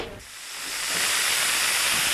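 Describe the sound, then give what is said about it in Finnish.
Bacon sizzles in a hot pan with a steady, bright hiss that dips briefly at the start, then swells and holds loud and even, with no voices. “Toivottavasti tämä pekonin tirinä tuntuu mahdollisimman inhottavana sinne jokaisen radioon.”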